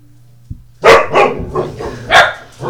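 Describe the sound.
A dog barking, five sharp, loud barks in an uneven rhythm after a faint thump, with nothing else audible.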